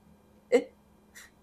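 Two quick hiccups, each a sharp, brief gulping catch in the throat. The first is louder and the second softer, with near silence around them.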